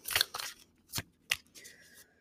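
A deck of animal oracle cards is shuffled in a few brisk, quiet bursts of riffling paper, with short pauses between them.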